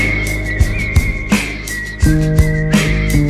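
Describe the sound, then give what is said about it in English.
Whistling across a meadow: a long, high whistled note held steady with a slight waver, over low sustained tones and a few soft thumps. “Doctor whistles across the meadow,”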